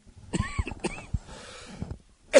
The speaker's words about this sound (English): Oh my goodness, the cough's getting worse. Can't stop it.